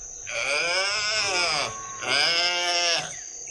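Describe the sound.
A calf bleats twice during milking time, two long, drawn-out harmonic calls, the first lasting well over a second and the second slightly shorter, with a brief quiet gap between them.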